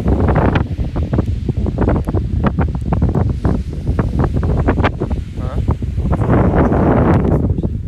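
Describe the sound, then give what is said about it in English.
Wind blows on a beach at night, buffeting the microphone with a loud, continuous rumbling roar that gusts unevenly throughout. “The wind's gonna be crazy in that.”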